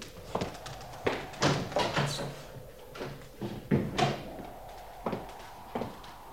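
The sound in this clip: A door is opened amid a string of wooden clunks, knocks and handle rattles, with several sharp impacts spread irregularly across the moment.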